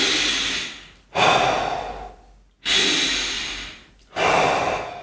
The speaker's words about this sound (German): Zeit zu nehmen, um sich auf seinen eigenen Atem zu fokussieren, tief einzuatmen und auch tief auszuatmen.